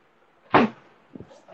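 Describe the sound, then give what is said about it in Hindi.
A door being shut lands as one heavy, muffled thud, followed a moment later by a fainter knock, with no talk over it. “एक minute में दरवाजा बंद कर देता”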